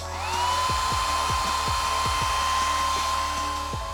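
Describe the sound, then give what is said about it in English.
A hair dryer blows steadily, its high motor whine rising as it spins up and then holding level over a constant rush of air, with faint low ticking beneath. “Maybe you even just blow-dried your hair.”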